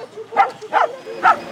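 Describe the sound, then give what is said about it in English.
Three short, sharp barks from two small dogs arriving with their family after a week of being frightened by airstrikes. The yips are evenly spaced and fairly loud over a low background hum. “teenage daughters arrive with heavy suitcases and their two small dogs”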